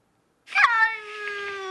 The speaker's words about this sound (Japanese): この猫の鳴き声流すんでどういう気持ちの鳴き声なのか当ててください。